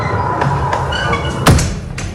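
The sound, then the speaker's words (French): A massive, heavy castle door, said to weigh up to three tonnes, being pushed open: a continuous low grinding rumble with a single dull thump partway through. “Et des portes ben, aussi massives que la maçonnerie, et certaines font 3 tonnes, on va voir ça. Oh là là, je ne sais pas si je vais avoir assez de muscles pour la pousser.”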